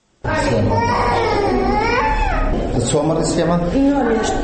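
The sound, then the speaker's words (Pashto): Children crying in a hospital children's ward in Kandahar, where young patients with seasonal respiratory illnesses are treated; loud, continuous wailing with wavering pitch begins abruptly and carries on without pause to the end. “دا د کندهار په میرویس روختون کې د ماشومان واټ دی. دلته هر ورځ په لسګونه داسې ماشومان راوړل کیږي چې په موسمي تنفسي ناروغیو لکه زکام، د ستوني درد، سینه بغل او نورو اخته دي.”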